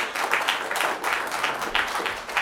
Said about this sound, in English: If you could, please, just so we can get done tonight, would you hold your applause at least until they're done, okay?